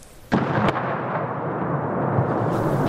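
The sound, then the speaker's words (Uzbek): A sudden loud blast and a second sharp burst, followed by a sustained rumbling roar: explosions in the streets of Chasiv Yar, a city in Donetsk region, during the war in Ukraine. “Viloyatning Chasiviyar shahri ko'chalarida portlash ovozlari eshitilmoqda.”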